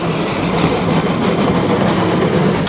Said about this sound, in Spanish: El tren para en una estación a cielo abierto.